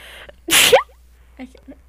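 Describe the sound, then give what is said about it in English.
One short, sharp sneeze bursts out as a loud, breathy puff lasting well under half a second. Faint vocal sounds follow quietly afterwards. “Was that a sneeze?”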